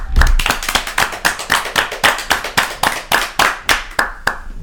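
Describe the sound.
Rhythmic audience clapping at a live French show, many hands beating together in a fast, even pulse of loud claps that keeps a steady tempo from start to finish.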